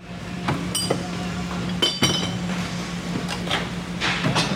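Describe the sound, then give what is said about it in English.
Glass clinks at a recycling sorting facility, where material is sorted by type: a few sharp, bright clinks and knocks over a steady, low machine hum. “That's the sound of the Bakersfield ARC's recycling facility.”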